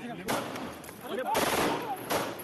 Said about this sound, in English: A gunman is seen reaching over the shoulders of police to point a pistol at the Temple of Ahmed, whose turban is blown off as the gun discharges.